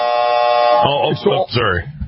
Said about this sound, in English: I hit the buzzer before you said that's a fact.